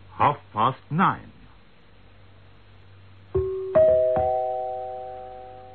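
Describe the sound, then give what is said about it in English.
A radio station's time signal gong rings out as three struck, bell-like tones in quick succession, each sustaining and slowly fading. Brief speech comes a few seconds before the strikes. “An accurate time signal. When you hear the gong, it'll be precisely”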